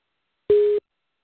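A telephone busy signal heard while phoning in to a show: a single short, steady, mid-pitched beep lasting about a third of a second, loud and clean against silence.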